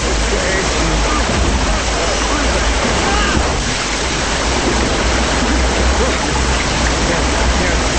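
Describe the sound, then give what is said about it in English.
Water rushing and rising around a man trapped under a truck: a loud, dense, continuous wash of churning water that holds steady throughout without pause. “Water rises around George, covering his body.”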